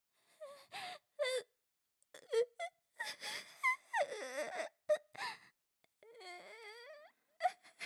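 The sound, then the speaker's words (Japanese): A person crying: wailing, moaning sobs with whimpering, rising and falling voiced cries broken by sharp gasping breaths. Many short, irregular bursts of varying loudness, with brief silences between them. “ああ、泣いちゃった。”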